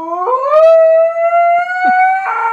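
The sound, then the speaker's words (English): A husky's howl that sounds like a screaming person: one long, loud, harmonic wail that climbs at the start, then holds a steady, piercing pitch before a harsher, strained burst at the end. “Is that a dog or a person? That was a dog. It was the husky. It was not in pain.”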